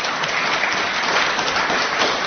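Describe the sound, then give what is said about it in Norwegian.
Loud, sustained applause from a crowd, a thick, even roar of clapping hands with no pauses from start to finish. “Hjertelig takk skal dere ha. Da klapper jeg.”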